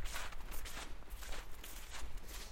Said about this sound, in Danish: Sneen har ligget nogle dage nu. Den er på vej til at smelte. Men endnu holder den sammen på sig selv og kan give de her lyde fra sig, når jeg går i den.